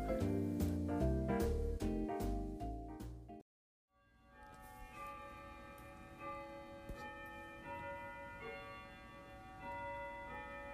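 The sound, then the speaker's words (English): Clock chimes in a bed and breakfast in Dilltown: a quick series of bright bell strokes, a short silence, then a longer ringing chime that lingers and slowly fades. “And that is the sound of the chimes here in the Dillweed Bed and Breakfast in Dilltown, just outside of Johnstown.”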